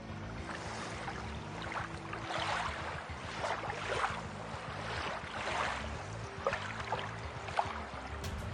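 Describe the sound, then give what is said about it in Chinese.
Water splashing and sloshing as staff stir up waves in a swimming pool, a continuous washing rush with several louder surges and no voices. “我们请我们的工作人员啊，来制造一下我们在游泳时产生了水波纹和浪花的情况下，结果又会有什么不同呢？来，我们制造一些浪花。”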